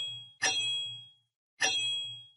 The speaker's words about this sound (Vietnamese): bỗng xoảng một tiếng, thanh kiếm đồng trên tay đã bị đứt